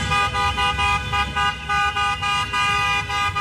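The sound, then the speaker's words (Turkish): Car horns honk from a convoy of fans welcoming Turkey's national football team in Los Angeles, in many loud, evenly spaced bursts with a steady, rhythmic pattern. “D grubundaki son maçında ev sahibi Amerika Birleşik Devletleri ile karşılaşacak Ay Yıldızlılar araç konvoyuyla karşılandı.”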